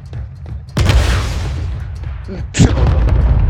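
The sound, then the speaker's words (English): A rocket explosion in a video game: a loud booming blast with a long, noisy rumbling tail, then a second sharper hit, over continuous game noise. “I know, I shot the rocket.”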